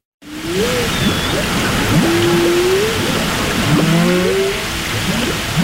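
Whale calls recorded underwater with hydrophones in Bakkaflói bay, northeast Iceland: several low tonal moans and short rising and falling whistles over a constant loud rushing wash of water noise.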